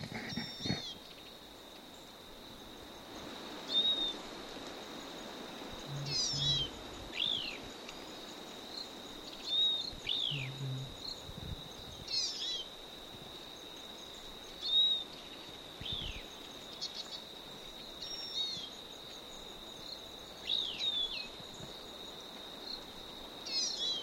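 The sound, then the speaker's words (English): Wild bird calls repeat every few seconds as short, high, downward-sweeping notes. They are faint over a steady, continuous high-pitched insect-like tone, with no voices. “Stop. Same bird.”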